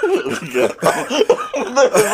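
A few short, throaty coughs in quick succession, loud and voiced, with brief pauses between the bursts.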